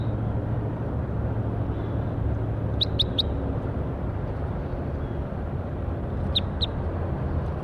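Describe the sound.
Bird calls: five brief, high chirps in two groups, three quick ones followed later by two, over a steady low background rumble.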